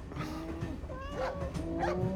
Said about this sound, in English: It's my cow.